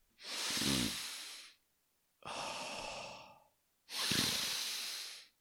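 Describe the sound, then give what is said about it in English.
A voice imitates a person's heavy breathing while concentrating on work: three long, loud, hissing breaths with a slightly snorting edge, separated by short pauses. “And that's how he breathed.”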